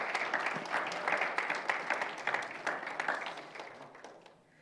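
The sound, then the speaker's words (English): Audience applause as guests are invited up to be interviewed: a dense, steady wash of many hands clapping, fairly loud and even for about four seconds, then thinning and fading away at the end. “Put your hands together for Wayne and Kim Crusher. They're going to come up, and we're going to be talking with them.”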